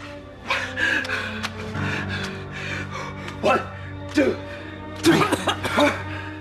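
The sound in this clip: A boy splutters and gasps for breath, with a few bursts of coughing and sharp gasps that grow louder and more ragged toward the end.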